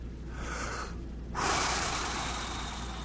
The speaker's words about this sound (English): Just breathe in. Just do it.